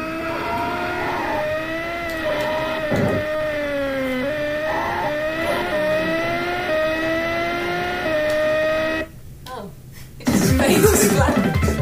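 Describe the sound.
Car engine revving in a racing video game on a medium-length bridge course: a steady, buzzing harmonic drone that climbs and drops in repeated gear-shift steps, then breaks into a noisier, louder burst near the end.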